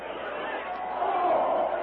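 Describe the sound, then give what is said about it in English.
Crowd commotion in a radio drama as people flee stampeding jungle elephants: a dense, steady murmur of many agitated voices that swells slightly toward the end. “With the crowd fleeing in every direction, the great jungle beasts tossing and thrusting aside all who failed to get out of their path”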